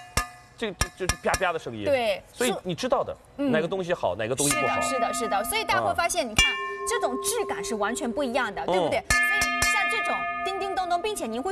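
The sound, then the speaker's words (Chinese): A titanium pot with an uncoated, pure titanium inner liner is tapped and rings like a bell. A few sustained, clear ringing tones linger beneath continuous talk. “这种声音 像不像梦？ 对， 嗡嗡嗡嗡嗡，跟个钟似的， 并且它自己会有那种很悠扬的传出去的感觉。”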